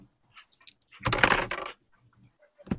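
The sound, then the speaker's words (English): Percentile dice being rolled: a short rattling clatter of dice tumbling across a surface, followed after a pause by a single sharper knock, with faint scattered clicks beforehand. “Roll. Percentile dice, please.”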